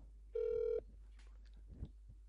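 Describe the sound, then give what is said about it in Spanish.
A telephone call is dialed with a single short, steady beep of about half a second, followed by faint, low sounds in a quiet recording. “vamos a llamar a David”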